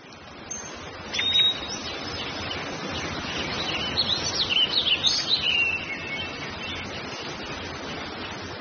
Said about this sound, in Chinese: 看好多的鸟的，对，好多鸟都飞过来了。